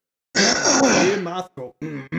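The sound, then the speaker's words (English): Throat clearing: a long, rough, voiced rasp followed by a few short vocal bursts, fairly loud. “I'm going to clear my throat really quick.”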